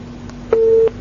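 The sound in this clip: A single short telephone busy-tone beep sounds after a call is cut off. The steady mid-pitched tone lasts about a third of a second over a low, constant hum.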